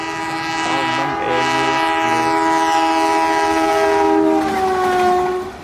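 An arriving train sounds a loud, sustained horn over a rolling rumble and wheel clatter. The horn's pitch slides lower near the end before the whole sound fades away.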